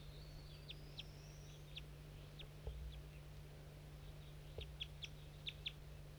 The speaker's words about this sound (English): Start recording 8 birds in the cotton. These are the wild ones.